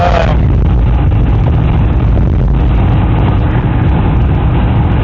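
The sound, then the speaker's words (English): Steady, loud road and engine roar of a car cruising at 55 mph on an interstate, continuous and unbroken, with no talk. “I'm sure everybody here on the interstate is angry. The speed limit's 75, and most people drive at least that, if not higher. And here I am going at 55,”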